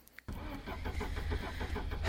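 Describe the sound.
An old car engine that often fails to start finally catches. A couple of faint clicks come before a sudden loud roar, which settles into a rough, pulsing idle.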